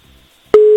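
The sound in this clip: Telephone ringback tone on an outgoing call to a listener's number in Hungary, waiting for an answer: a loud, steady single-pitched tone that starts abruptly after about half a second of near silence and holds to the end.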